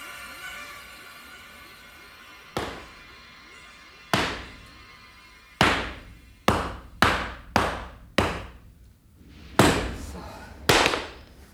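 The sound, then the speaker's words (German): Gunshots ring out as a series of sharp, loud reports with quick decaying tails, about nine in all, irregularly spaced and bunched tightly in the middle, over a faint steady background hiss. “Sie haben unsere Schüsse gehört.”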